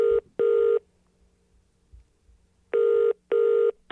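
Ringback tone of an outgoing telephone call: steady mid-pitched tone bursts in two pairs, separated by a long pause with faint line noise between them.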